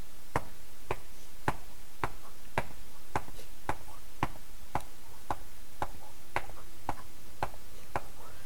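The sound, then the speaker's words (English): A voice imitates a bass drum played by a pale, skinny boy at the back of the band during a Christmas concert, producing a long, steady run of sharp, evenly spaced thumping hits with no talk. “And there's this pale skinny guy in the back on the bass drum going.”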